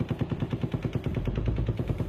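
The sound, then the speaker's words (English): Automatic gunfire, many rounds in a fast, evenly spaced stream of dull, heavy bangs that run without pause through the whole stretch. “It was just shooting right over your head.”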